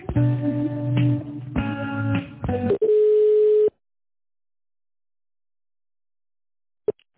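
Electronic telephone tones play while a call waits in a service-centre queue: a few pulsed, buzzy tone bursts, then one steady tone that cuts off abruptly into silence, followed later by a brief click.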